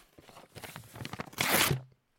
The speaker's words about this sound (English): I think I better tear up this contract.